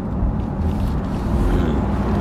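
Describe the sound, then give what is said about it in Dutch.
A car with a hot-V turbo engine, turbochargers mounted inside the V, accelerates hard with a loud, dense, continuous low roar that holds steady throughout. “Hey, het is echt heel snel. Hot V, dus hè, die turbo zitten in de V. Gewoon echt een snoepje. Klinkt ook lekker.”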